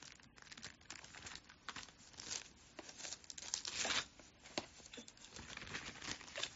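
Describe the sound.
Thin pages of a Bible being flipped to 2 Corinthians, with continuous papery rustling and crinkling and several louder swishes across a few seconds.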